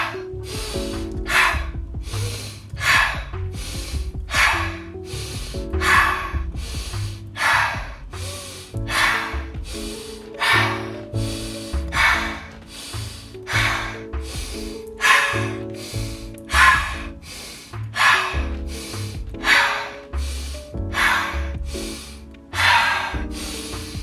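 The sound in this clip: Many rhythmic breaths during a relaxing sleep breathing exercise, inhaling through the nose and exhaling through the mouth, each a soft airy rush repeating at a steady pace over gentle tonal music, with no talk.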